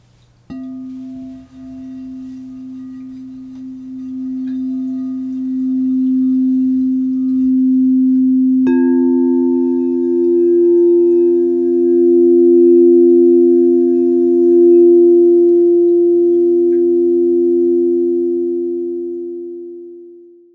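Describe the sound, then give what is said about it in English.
Two pure, sustained tones sound together as a musical fourth for sound healing. The steady, smooth drone shifts in timbre partway through, holds loud, then fades out at the end. “This tonal interval is called a fourth.”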